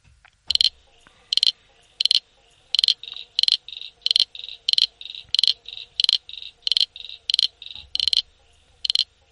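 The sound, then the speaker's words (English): A brown froglet from Tasmania calls alone: a long, steady run of many short, high-pitched rasping chirps repeated in an even rhythm. “There's another small brown frog, which, like the brown tree frog, is common and is found in most areas of Tasmania. That is the brown froglet, and it sounds like this.”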